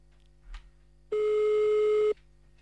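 A single steady telephone line tone sounds for about a second as someone is called back. It is a flat, unbroken beep heard alone over faint line hiss.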